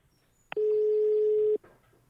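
A telephone ringback tone while a call is being placed: one steady, mid-pitched electronic tone lasting about a second, clear and loud over a faint background hiss, with no talk.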